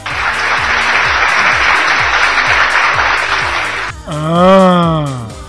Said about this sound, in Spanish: no estaba buscando aplausos. Que quede constancia, por favor.